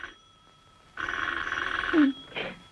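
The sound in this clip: A telephone rings in a single steady, buzzing burst of about a second, bright and fairly loud against a quiet background, followed by a short faint sound.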